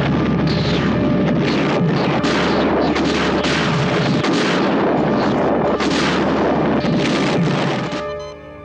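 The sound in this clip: Laser torpedoes firing as a sci-fi sound effect: a dense, continuous barrage of booming, roaring blasts with many overlapping pulses. It stays loud throughout and fades away at the very end.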